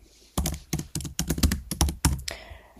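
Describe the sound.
Typing a note on a computer keyboard: many quick keystrokes in uneven bursts, crisp and moderately loud, with short pauses between groups and no voices.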